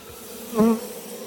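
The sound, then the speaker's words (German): Honeybees buzz around an opened beehive as smoke is used to calm them: a steady low hum that swells into a louder, fuller buzz around the middle of the short clip as a bee passes close, then settles back. “Dadurch beruhige ich die Bienen ein bisschen.”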